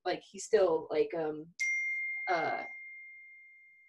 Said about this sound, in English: I hate when my phone does that. I turned it off on all this stuff and I'm still getting text messages on my computer.